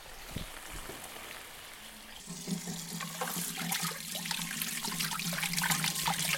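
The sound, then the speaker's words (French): Cold tap water runs into a sink to cool and drain just-blanched green asparagus. After about two seconds of quiet kitchen sound, a steady hissing, splashing rush starts and grows slightly fuller toward the end. “Je fais couler de l'eau froide et je vais égoutter tout de suite, comme des pâtes.”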